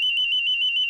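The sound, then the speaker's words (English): A store anti-theft alarm goes off as a shoplifter leaves a clothing store in a shopping mall with a blouse hidden in her bag. It is a single steady, piercing high-pitched electronic tone, loud and unbroken through the brief moment. “That's the sound you hear after a young woman stuffs a small blouse inside her bag and then walks out of an Old Navy store at the Eaton Centre.”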